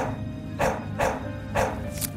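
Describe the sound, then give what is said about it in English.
A few short, faint barks from a female dog, spaced irregularly over a low, steady background hum. “You wanted a dog so badly that you made your stuffed dog real”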